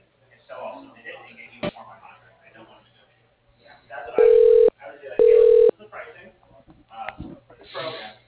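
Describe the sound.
An automated phone system plays two loud, steady touch-tone beeps while dialing extension 0. Each lasts about half a second, with a short gap between them, and people talk on the line before and after.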